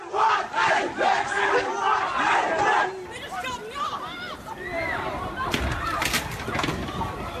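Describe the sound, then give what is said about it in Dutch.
A violent crowd disturbance at the Moomba festival in Victoria brings agitated shouting and yelling from many voices, loud at first, then a rougher mix of cries and calls that break over one another. “Dat was het geluid van geweld bij het populaire Moomba-festival in maart dit jaar.”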